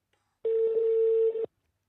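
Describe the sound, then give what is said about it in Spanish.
A telephone call being placed to a man named Carlitos: one steady, mid-pitched ringback tone lasting about a second, heard alone with no talk. “Estamos llamando a Carlitos.”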